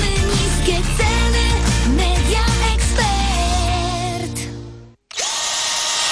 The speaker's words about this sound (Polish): w Leroy Merlin akumulatorowa wiertarko-wkrętarka Bosch o napięciu 12 V i sile momentu do kręcania 20 Nm.